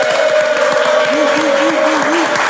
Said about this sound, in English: And let's all make some noise for EFN.